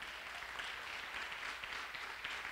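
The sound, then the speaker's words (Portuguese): An audience applauds during a church sermon, a faint, steady wash of clapping that stays even for the whole stretch, with no voices on top. “Dá uma salva de palmas para Jesus.”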